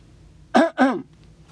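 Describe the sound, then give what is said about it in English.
Someone clears their throat beside a road in two quick, rough, fairly loud bursts, heard alone over faint background noise. “I'm going to clear my throat.”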